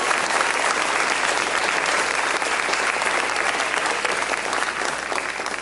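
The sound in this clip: Sustained applause from a church audience at an event honouring fathers: dense, steady clapping that fills the whole clip at an even level and eases slightly near the end.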